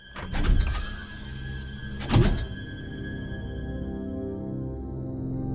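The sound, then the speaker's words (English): Elevator doors slide open in an audio drama, giving two brief mechanical whooshing thunks close together near the start. A steady low hum of machinery follows and runs to the end. “If we're taking the elevator alone, then what floor do we choose?”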